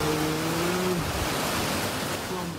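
Floodwater rushes fast and hard through a village lane in Si Racha district, a steady broad roar of flowing water. A low engine-like drone sounds briefly at the start and again near the end.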